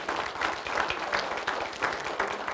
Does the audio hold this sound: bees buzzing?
no